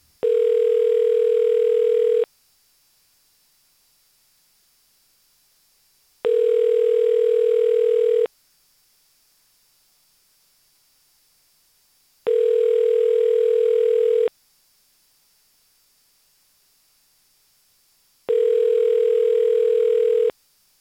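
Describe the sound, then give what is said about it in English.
A telephone ringback tone sounds while a caller is being rung back: four steady buzzing rings, each about two seconds long, separated by roughly four seconds of silence. “I haven't been able to reach this caller, but bear with me while I try again.”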